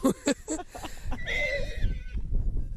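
A horse whinnies in a meadow clearing: one long, wavering, high harmonic neigh stands out over a steady low rumble of background noise.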